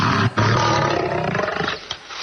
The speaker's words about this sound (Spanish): Tengo una grabación de un león del anfiteatro romano.